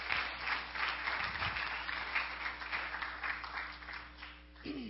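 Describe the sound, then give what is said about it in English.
Faint audience applause at a church worship service, a dense, steady wash of hand claps that holds at an even level for the whole stretch, with a low hum underneath. “would you give her a hand clap as she comes up?”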